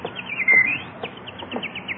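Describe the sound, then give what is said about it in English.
A bird chirps on a lawn: a run of short, high tweets repeating at an uneven pace, with one longer whistled note near the start, all fairly soft over a quiet background. “look at that beautiful bird on your lawn. Oh, look, he's hopping over to us. Come on, birdie. Come here.”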